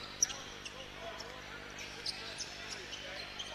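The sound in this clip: A basketball is dribbled during a high school tournament game. Faint, irregular bounces thud now and then over a steady wash of background noise.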